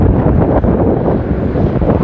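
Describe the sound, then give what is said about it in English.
Wind blowing into an outdoor microphone on a street: a loud, steady rumbling buffet that roars and flutters without a break, with no voice over it. “I see you can hear the wind. I can see when I stop talking. The mic is still picking it up.”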